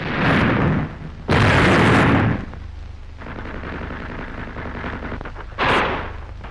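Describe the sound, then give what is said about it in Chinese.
Gunfire in a battle as armed fighters shoot at an enemy hideout: a few loud, blasting bursts over a continuous rumbling roar. “战斗打响了，契卡的同志们在向这个反革命黑窝射击。”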